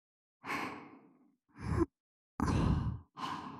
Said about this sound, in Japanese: ミヤもお耳ふうふうするにゃ。